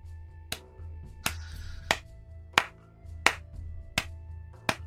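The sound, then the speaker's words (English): Quiet applause from a humanoid figure walking down a hill: seven slow, evenly spaced single hand claps, sharp and fairly faint, over a low steady hum. “this quiet applause. And you turn and see this shape, humanoid shape, walking down a nearby hill, applauding you.”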